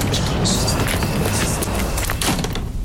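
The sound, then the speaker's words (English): Footsteps of customers leaving a shop: a loud, busy shuffle of steps and scuffing movement over a few seconds, with sharp bursts scattered through it and no one speaking. “Hear that? That's the sound of my customers leaving.”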